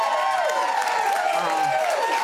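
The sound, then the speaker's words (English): A small, enthusiastic studio audience in South Bank cheering and applauding, with steady clapping mixed with raised voices at an even, fairly loud level throughout. “Absolutely an intimate audience, yes. However, it should be said, a very enthusiastic audience.”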